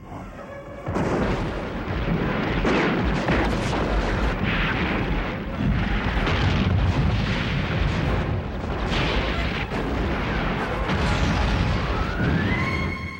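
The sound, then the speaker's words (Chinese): Warship cannon fire and explosions in a fleet battle form a dense, continuous roar of rumbling blasts. The roar swells in after the first second and stays heavy throughout. “我军的格里巴查向我们发炮射击。”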